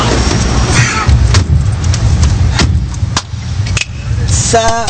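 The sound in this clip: A car being driven: a steady, loud low road and engine rumble with broad noise throughout, broken by a few sharp clicks and knocks.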